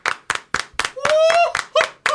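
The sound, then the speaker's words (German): Rhythmic hand clapping in celebration: a steady run of sharp, evenly spaced claps, with a raised voice whooping over the middle stretch. “Erstmal dafür fetten Applaus und danke an euch da draußen.”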